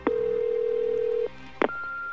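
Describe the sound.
A phone call goes to voicemail: a long steady mid-pitched tone holds for over a second and stops, a short click follows, then a higher, thinner voicemail beep sounds and holds to the end.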